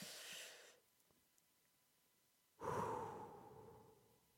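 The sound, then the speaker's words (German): A deep breath taken mid-talk to calm down and return to the present moment: two breathy rushes of air split by a quiet gap, the second longer and louder, with no speech. “Das war ein wichtiger Atmer gerade. Das war ein ganz wichtiger Atmer”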